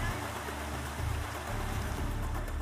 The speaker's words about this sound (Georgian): ეს კი ქალაქის ადგილობრივი ღირსშესანიშნაობაა, ჩანჩქერი.